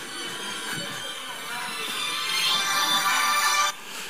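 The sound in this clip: Mobile phone ringing with a continuous bright electronic ringtone, its tones holding steady and growing slightly louder before cutting off abruptly near the end.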